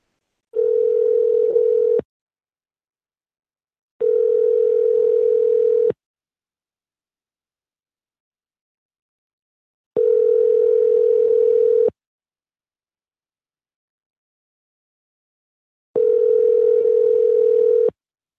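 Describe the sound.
A telephone ringback tone sounds while a prank callback is placed: four long, steady mid-pitched tones of about two seconds each, separated by silent gaps, with nothing else heard.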